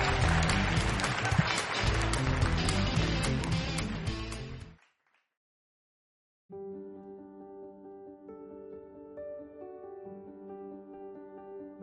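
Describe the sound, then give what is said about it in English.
Dense, continuous audience applause for a speaker fills the first seconds and cuts off abruptly. After a short silence, sustained musical tones follow. “Put them together for Doug Addison.”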